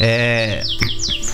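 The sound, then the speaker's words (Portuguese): Small bird chirping: a few quick, high, downward-sweeping chirps in close succession. “Voltou o passarinho, quer dizer, ele? Eu quero. O passarinho voltou.”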